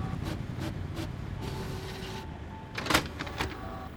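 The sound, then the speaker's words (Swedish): A printer printing out a fact sheet gives a mechanical whirring drone with light clicks, swelling into a louder burst of motor noise near the end. “Jag skriver ut faktan åt er här.”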